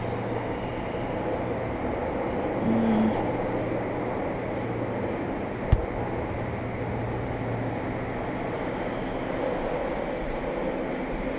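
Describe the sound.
A passenger train running, heard as a steady low rumble with even noise throughout and one sharp click midway.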